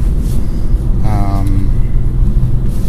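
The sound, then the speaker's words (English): Heard from inside, a car drives on the road to a polling place with a loud, continuous low engine and road rumble. A brief tonal sound rises over the drone in the middle. “I am driving to the polling place.”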